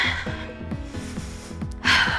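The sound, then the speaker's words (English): A deep breath exhaled during a guided exercise session comes as a short, loud breathy burst near the end, over a steady rhythmic music beat that runs throughout. “Take a deep breath through your nose. Inhale.”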